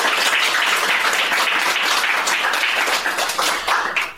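Audience applause thanking a guest, a history professor, with dense, steady clapping that holds loud throughout and tapers slightly at the very end.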